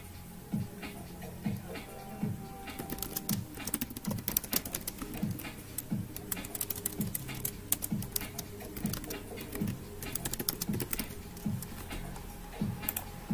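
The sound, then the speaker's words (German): Typing a chat message on a computer keyboard: many rapid, irregular key clicks patter on steadily for the whole stretch, with no voices over them. “So, ich schreibe jetzt mal. Ich schreibe jetzt mal was in den Chat.”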